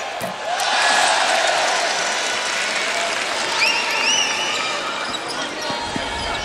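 A Belgian crowd roars and claps at a women's basketball game during a free throw, a loud, sustained din that eases slightly later on, with a ball bouncing near the end.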